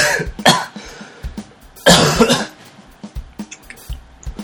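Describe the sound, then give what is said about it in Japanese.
A person coughs after choking mid-conversation: a couple of loud, harsh coughs, then fainter throat-clearing sounds and breathy catches that trail off. No talk is heard. “ちょっとむせた”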